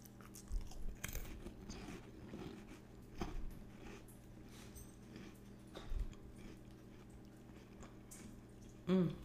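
Cabaret crackers are chewed in quiet, crisp, irregular crunches, with several louder bites standing out and a sharper crunch at the very end.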